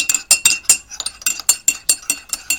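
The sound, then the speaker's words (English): A spoon stirs coffee in a cup, kept on the bottom, making many rapid, rhythmic metallic clinks against the sides at a steady pace. “go to the cup to the left and stir my coffee. And this time, what we're going to do is you're going to keep it on the bottom, okay? And you're going to stir it like that.”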